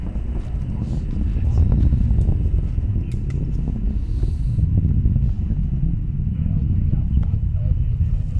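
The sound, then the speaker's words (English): Deep roar of the Castor 120 solid stage-zero motor as a 104-foot Minotaur C rocket climbs away from Vandenberg Air Force Base: a loud, continuous low rumble that stays steady for the whole stretch. “Attitude remains nominal as the Castor 120 stage zero motor propels the 104-foot tall Minotaur C vehicle away from Vandenberg Air Force Base.”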